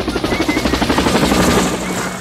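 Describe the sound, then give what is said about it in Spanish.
A helicopter flies overhead as people arrive by air, its rotor beating in rapid, regular thuds over a low engine drone, loud and continuous with no talk. “Aquí está la gente llegando en helicóptero.”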